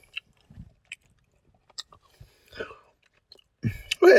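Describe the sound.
Chewing a Milky Way chocolate bar: a few faint, sparse bites and soft wet mouth sounds separated by quiet gaps, followed by a brief voice at the end.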